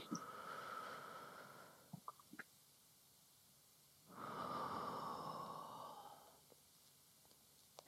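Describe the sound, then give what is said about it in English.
Audible deep breathing during a calming breath-awareness exercise: a long, steady breath, a pause with a few soft clicks, then a second fuller, louder breath of similar length, slow and unhurried with no talk. “it might be helpful to be able to really hear your breath. So, making it audible.”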